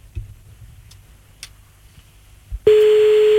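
A telephone call is placed: a few faint soft clicks, then a steady, loud, mid-pitched line tone starts abruptly and holds unchanged to the end.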